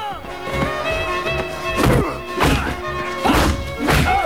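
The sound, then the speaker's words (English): Vicious kicks and blows in a movie fight scene land as a few heavy, punchy thuds and whacks over a sustained musical score. “A series of vicious kicks from various fight scenes.”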